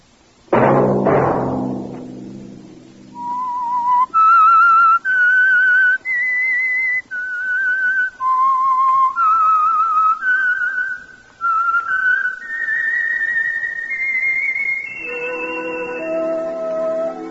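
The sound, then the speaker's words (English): A person whistles a tune in many clear, high, sustained notes separated by short gaps, stepping up and down in pitch. It follows a brief low, resonant sound at the start and closes on lower held tones. “Let that whistle be your signal for the Signal Oil program, The Whistler”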